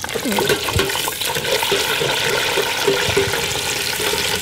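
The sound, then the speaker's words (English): Edible bugs deep frying in oil with a pinch of salt give off a continuous bubbling, crackling sizzle, loud and dense with scattered pops throughout. “Well, this is one of my favourite ways to have them. It's just deep fried with just a tiny wee pinch of salt.”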